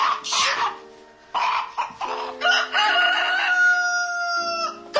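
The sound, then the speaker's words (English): Rooster crowing: a few short rough bursts, then a loud, sustained, strongly tonal crow that holds steady for several seconds before breaking off. “A beady-eyed rooster struts up behind her.”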